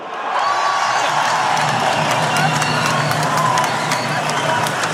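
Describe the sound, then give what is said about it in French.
Loud, sustained crowd cheering and applause rise quickly and hold steady as an ovation at a civic ceremony in Bayonne, with occasional higher whoops and whistles over the dense roar. “Voici, chers amis, une ovation, s'il vous plaît, à Henri Louquet.”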